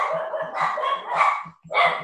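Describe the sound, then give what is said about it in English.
Agitated barking from a household's pet dogs: a rapid, nearly continuous run of many sharp barks at fairly steady loudness, broken by one brief pause near the end before the barking resumes. “I apologize, my dogs are freaking out.”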